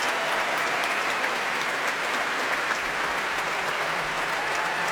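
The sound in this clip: An audience at a BBC Prom applauds the timpanist and percussion section of an orchestra after a symphony, a dense, continuous wash of clapping that holds steady and full throughout.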